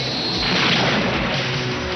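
Missile firing sound effect from the film Top Gun: a loud, sustained roaring rush of dense noise that holds steady for about two seconds with no clear break.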